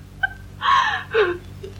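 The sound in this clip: A woman cries in a couple of shaky, whimpering sobs, fairly soft, with no words spoken.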